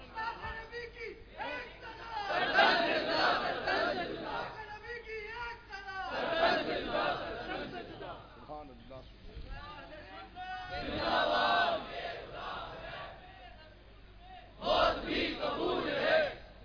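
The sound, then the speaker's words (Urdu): A crowd at a religious gathering shouts the slogans Takbir and Risalat, loud collective chanting in several surging bursts separated by quieter stretches, with voices clearly carrying the calls. “ذرا اس کی گواہی دیتے ہوئے نعرہ سناؤ نعرہ تکبیر نعرہ رسالت”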